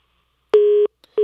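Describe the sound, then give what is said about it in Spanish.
Busy signal after a lost phone line: two clean, steady mid-pitched tones with a brief faint click between them, heard alone against silence. “Ah, se nos perdió Fernando en la línea, ahorita le volvemos a marcar”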